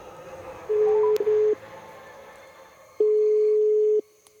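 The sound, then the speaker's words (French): Telephone ringback tone while a call is being placed: two steady mid-pitched beeps of about a second each, the first briefly broken, separated by a pause over faint background hiss. “Attends, j'appelle Colin.”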